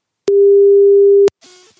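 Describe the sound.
A telephone ringing tone as a call is placed: a single loud, steady, mid-pitched tone lasting about one second, followed by a short, softer trailing sound.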